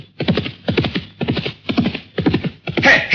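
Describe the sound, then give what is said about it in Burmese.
Horse hooves pound in a steady galloping rhythm as a courier's horse arrives in a Burmese drama scene. About six clusters of beats are evenly spaced and fairly loud, and a brief neigh comes at the end. “ဟဲ့ဟဲ့ပမမြင်းတစီဒုံဆိုင်လာပါလား မှန်လားပါဗျာဒါဆက်သားငမတ်ရဲ့မြင်းဖြစ်ကြောင်းပါဗျာ”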